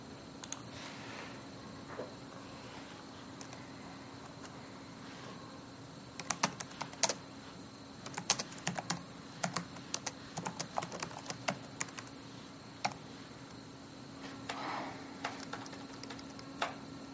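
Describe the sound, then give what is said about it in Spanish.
Typing on a computer keyboard, irregular runs of sharp key clicks separated by quieter pauses, over a steady low hum. “el ordenador, pasa las páginas de un documento y después escribe.”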